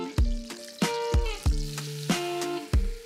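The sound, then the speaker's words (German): Butter and flour sizzle in a pan as a roux for a béchamel for lasagne, while a utensil strikes the pan about six times, each hit ringing with a metallic tone over the light frying. “Das heißt, wir haben jetzt hier Butter geschmolzen. Und dazu kommt jetzt die gleiche Menge an Mehl dazu.”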